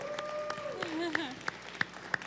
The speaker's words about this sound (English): That, we need to give them a big clap.